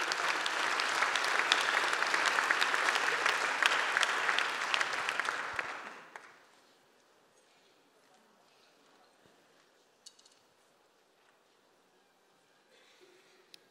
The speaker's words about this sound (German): Applaus.